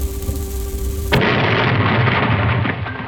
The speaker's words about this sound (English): No family should explode just because they were pinching pennies.